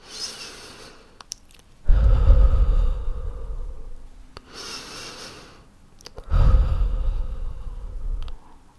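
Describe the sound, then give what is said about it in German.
Slow deep breaths in and out, taken to calm down: two long, loud, breathy rushes of air separated by softer, quieter breathing, with no talk. “Ich atme ein, zwei Mal tief ein und aus.”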